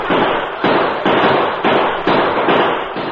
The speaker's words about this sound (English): Bullets flew into the cave and glanced off rocky walls and ceiling.